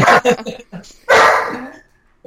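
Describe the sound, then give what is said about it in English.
A dog barks at home, reacting to a garage door opening: a few loud, sharp barks and yips that overlap with people talking. “We can pause or we can talk through the dog. We can talk right through it. He shouldn't bark that much.”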